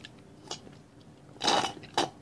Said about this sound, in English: Now I'm eating my 4 p.m. breakfast.